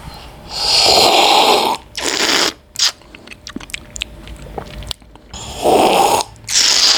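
A coffee roaster slurps samples of his own roasts to test their aromas: a few long, loud, hissing slurps, with smacking and clicking mouth sounds between them.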